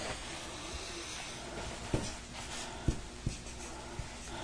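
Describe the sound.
Marker drawing on a board, a soft scratchy run of strokes broken by a few sharper taps and squeaks.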